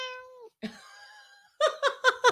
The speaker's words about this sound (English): I was hoping you'd join us. The cat has joined.